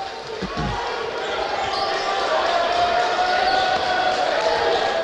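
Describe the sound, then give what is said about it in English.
A basketball is dribbled on the court during a game as a player works a crossover on the left wing. A couple of quick, low thumps come early, then a steady crowd murmur fills the rest. “Crossover and still dribbling on the left wing.”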